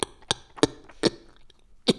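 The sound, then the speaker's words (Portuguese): Five short, sharp snorts of air pulled inward through the nose and back of the throat, as if scratching the throat from inside. The bursts are faint and irregularly spaced, with quiet between them. “é puxar... que ao mesmo tempo é também um som que se faz quando se coça a garganta”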